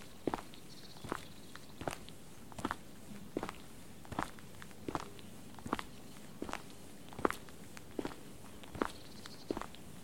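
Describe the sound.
Footsteps walk steadily from a meadow onto a tarred path, with many evenly spaced, crisp steps in a regular rhythm and no talking.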